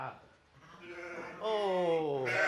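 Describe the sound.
Sheep bleating in a small stable at the edge of monastery fields: a loud, quavering, wavering bleat in the second half, preceded by quieter bleat-like calls.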